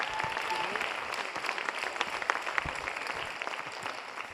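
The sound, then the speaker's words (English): A church audience applauding to welcome a guest speaker, with faint, steady clapping throughout and a few sharper claps standing out. “So if you would, there at home, here in the building, put your hands together.”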